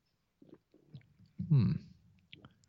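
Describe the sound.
A sip of red wine is taken and tasted, heard as a brief, soft slurp with a few faint mouth sounds around it.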